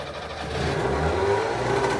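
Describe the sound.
A Trabant car engine running in a private repair workshop in East Berlin, a steady low droning rumble that swells slightly after the first moment and then holds.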